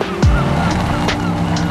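A car on Bridgestone Turanza All Season 6 tyres gives a quick swoosh that falls in pitch early on, then settles into a steady engine hum with faint tyre noise.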